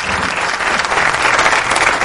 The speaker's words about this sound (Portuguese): Mais palmas aí pros ouvintes.